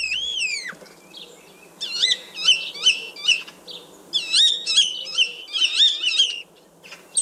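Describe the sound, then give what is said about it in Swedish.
Common starling song: many bursts of varied whistles, rising and falling slurred notes, buzzy warbles and clicks, delivered in quick, lively phrases separated by short gaps, with no talk over it. “Och det här det är alltså staren, så den har ett eget ljud också”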